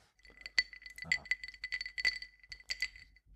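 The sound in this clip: Ice cubes rattle and clink in a glass holding a rum-based White Russian cocktail, with many bright, irregular chinks in quick succession, fairly soft and with no talk.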